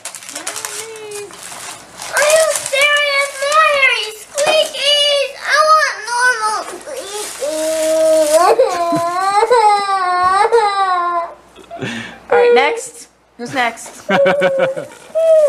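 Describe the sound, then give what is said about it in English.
A little girl has a crying tantrum: loud, wailing sobs with swooping, strained pitch come in repeated bursts separated by short gasping pauses over about fifteen seconds. “This is a small example of a little girl losing it.”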